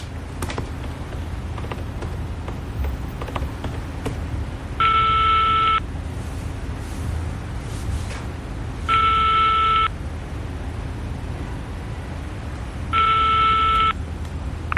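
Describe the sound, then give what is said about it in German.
A telephone call is dialed from a hotel room: a few faint clicks, then three evenly spaced, steady ringing tones, each about a second long, over a constant low hum. “T-Rex ist klar, dass er sofort seinen augenblicklichen Geldgeber, den Reporter Kai Sickmann, anrufen muss”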